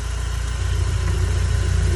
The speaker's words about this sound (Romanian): Uitați ce merge cu ulei de ăsta nou. Nici nu bate motorul, nimic.